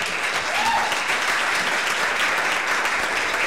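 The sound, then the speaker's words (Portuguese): An inserted applause sound effect, dense and even clapping from a large crowd, continuous and fairly loud without pauses. “Ok, já estão aqui as palmas.”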